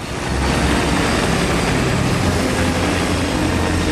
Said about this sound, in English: buttons to the on position, and the blades slowly begin to rotate. As more switches are turned and tweaked, the helicopter begins to slowly rise off the ground.